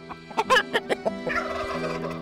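Chickens clucking inside a medieval farmhouse shared with the family: a rapid run of short, bright calls, then a longer warbling call that holds steady at moderate loudness.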